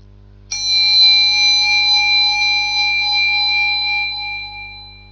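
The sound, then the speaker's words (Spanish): A small meditation bell is struck once during a guided breathing and meditation exercise, and its clear, bright tone rings on alone, sustaining for several seconds and fading slowly. “A continuación va a sonar una campanilla de meditación. Debéis seguir su sonido hasta el final, hasta que se haga el vacío.”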